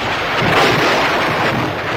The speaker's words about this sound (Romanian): Fulgere! Vijelie și alte trezneli meteoradiofonice